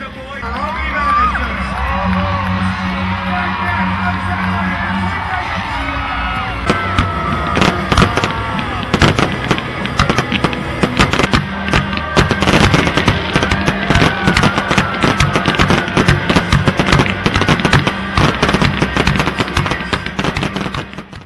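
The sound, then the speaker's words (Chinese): Farewell fireworks after an Australian Holden team stunt show: dense, rapid crackling and popping bursts that start a few seconds in and continue loudly and without a break to the end. “在一天的节目中，压轴的还是澳洲豪顿车队的特技表演和道别焰火。”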